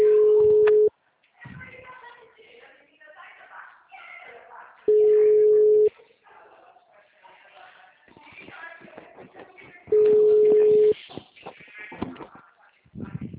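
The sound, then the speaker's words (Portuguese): Ringback tones play while a phone call is placed: three steady, mid-pitched beeps, each about a second long and spaced evenly about five seconds apart, with people talking in the gaps between them. “vou fazer ligação.”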